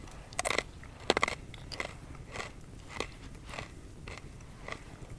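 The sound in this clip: Crunching bites into a hard, dry homemade biscuit stored in a jar for over a year: two sharp, loud cracks early on, followed by softer, rhythmic crunchy chewing.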